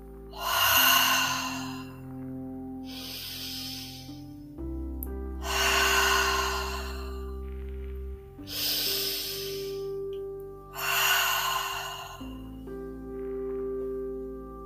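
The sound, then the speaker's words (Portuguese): Deep breaths drawn in through the nose and let out through the mouth during a guided relaxation exercise: several long, airy breath sounds that swell and fade over a soft, steady musical drone. “Faça três respirações profundas, puxando o ar pelo nariz e soltando pela boca.”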